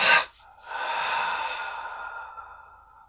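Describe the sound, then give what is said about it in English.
A deep breath is drawn in quickly, followed by a brief pause, then let out in a long, steady, breathy exhale that gradually fades. There is no speech. “And now take a big, nice inhale through your nostrils. Fill up your lungs as much as you can. And then hold the breath while you squeeze every muscle in your body tense. And then let it go.”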